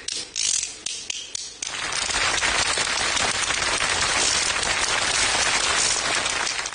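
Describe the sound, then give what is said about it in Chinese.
Two small bamboo clapper boards struck in a quick, uneven run of sharp, dry clacks, followed by a long, steady wash of audience applause. “手艺就两个小竹板儿， 上面能打响吗？”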